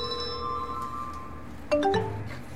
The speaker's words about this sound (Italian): Ecco, sentite, già arriva la chiamata.